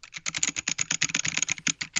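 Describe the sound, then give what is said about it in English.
Fast, steady typing on an old-school, clacky, giant and heavy computer keyboard: many crisp, loud keystrokes in a quick, slightly uneven rhythm, alone without talk. “And the problem is, I'm not the person to ask about this because this is my keyboard. And I will show you why this matters.”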